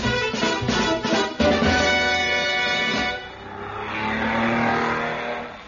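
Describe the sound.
A racing car engine roars during a race, a loud, steady revving drone with a harmonic whine that dips briefly and then swells again toward the end.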